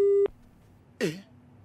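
A telephone busy signal after the caller hung up: one steady electronic tone lasting about a quarter second, followed after a pause by a brief voiced sound.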